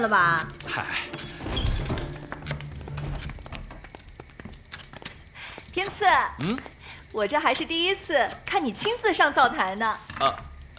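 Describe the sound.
Knife chopping scallions for soup, heard as many quick, light taps early on and then mostly covered by people talking.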